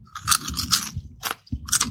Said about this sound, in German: Aber an sich Kesselchips mit dieser Schale, mit diesem sehr knusprig, krossen. Warte mal, ich probiere es nochmal.